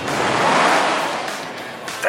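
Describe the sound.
Whooshing drive-by of a futuristic all-electric car from an advert: a broad airy rush of sound that swells, holds steady, then gradually thins out, with a brief sharp burst right at the end.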